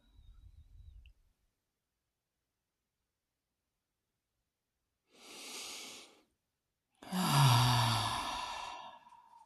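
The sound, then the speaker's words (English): Slow, deep breathing: two long, airy breaths separated by silence, the second fuller and longer than the first, with a faint low sound at the very start. “And breathe.”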